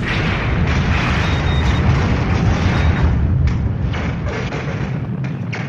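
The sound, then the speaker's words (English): A sci-fi sound effect of a spaceship exploding: a loud, sustained roar of dense rumbling noise that eases slightly toward the end. “And then the Romulan ship explodes.”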